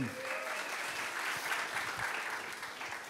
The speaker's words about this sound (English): Y'all welcome my friend Joe Fisher, please.